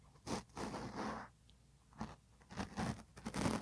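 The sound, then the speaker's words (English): A mustache is rubbed close against a microphone for ASMR, giving faint, bristly scratching and crackling rustles in uneven bursts, with a brief quiet gap in the middle and no voices. “Let me give them the mustache ASMR real quick.”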